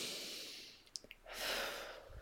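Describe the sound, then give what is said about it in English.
A deep breath drawn in during a calming exercise: a soft, airy rush of breath that swells and fades over about a second, preceded by a few faint clicks. “take a deep breath with us.”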